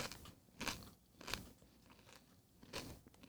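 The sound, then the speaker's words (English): Crunching on a Dorito tortilla chip: three crisp, loud bites spaced out over a few seconds, with softer crackly chewing between them and no voices. “You know what? It also tastes like a Dorito. Was it a Dorito? It's a Dorito.”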